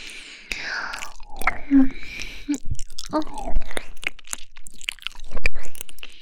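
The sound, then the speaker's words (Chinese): Wet, intimate mouth sounds of ear licking: soft smacks, slurps and tongue clicks arriving in irregular bursts, with faint breathy, whisper-like textures between them. “哦，人家这样舔你的耳朵，你就这么敏感吗？”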